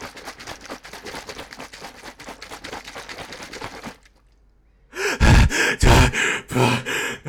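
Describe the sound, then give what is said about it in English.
A voice imitates swimming freestyle across a pond: a long run of rapid, rhythmic, breathy splashing noises, a short pause, then several loud gasping grunts. “swimming noises because we're going to swim this time freestyle across the pond to the AEW land.”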